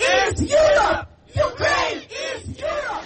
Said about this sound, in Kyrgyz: Саммит учурунда Украинаны колдогон адамдар шаардын көчөлөрүндө митингге чыгып, Украинаны Европа биримдигине кабыл алуу жараянын тездетип чечим кабыл алууну талап кылып кыйкырып